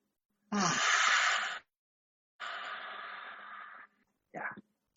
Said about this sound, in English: So breathe in, breathe out. Breathe in.